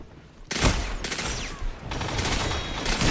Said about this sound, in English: I'm getting pulse rifled so hard.